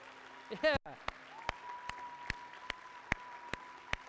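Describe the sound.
Church audience applause welcoming two new sisters into the family: sharp claps at a steady, even pulse over a low, constant hum. A brief voice sounds near the start.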